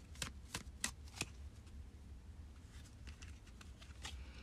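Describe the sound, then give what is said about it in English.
A tarot card is pulled from a shuffled deck. A quiet run of soft, papery flicks and snaps starts with a few sharper ones, then settles into fainter rustling. “So let's pull a card for you, Capricorn rising for Saturn in Pisces.”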